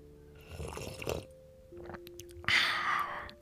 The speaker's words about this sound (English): I've got a cup of tea here, so I'm just going to have a drink. Here's just some ASMR for you.